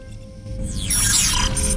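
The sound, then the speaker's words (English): A large metal door opening: a low hum swells into a loud mechanical whoosh with sweeping, descending high tones and a bright, sustained whine. “A large metal door opens.”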